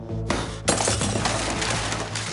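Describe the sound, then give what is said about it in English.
A phone hurled into a bedroom mirror gives a sharp hit, then a louder crash as the mirror glass shatters, followed by a sustained spray of tinkling, scattering fragments, with no voices. “He hurls it at a mirror, which shatters.”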